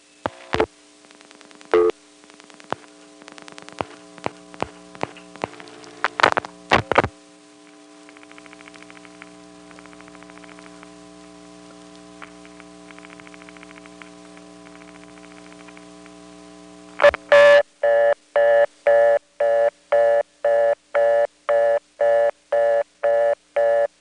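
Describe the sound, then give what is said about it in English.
A telephone line dials a 756 number and hangs up to trigger a trunk flash. Sharp dialing clicks and bursts give way to a low steady hum, followed by a long, regular run of loud, rapid beeping tone pulses. “Now I'm going to dial a 756 number and hang up before it even gets a chance to send anything. You'll hear the trunk flash.”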